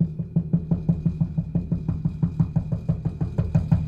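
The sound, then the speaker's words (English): Knocking on a house door, many rapid, evenly spaced low thuds that keep a steady rhythm throughout. “Just think about your house door right now. Just listen. It's one thing to hear this, because that's knocking.”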